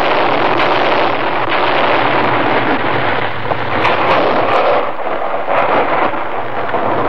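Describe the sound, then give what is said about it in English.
Rolling, booming rumble from a Forest Service artillery team firing blank shells to clear avalanche-prone snow in the Colorado Rocky Mountains, a continuous loud roar with no clearly separate shots. “That is the sound of a United States Forest Service artillery team clearing an avalanche in the Colorado Rocky Mountains.”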